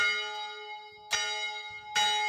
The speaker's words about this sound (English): where, back in the day, it could be pulled to ring a bell. And yes, they kept the bell too.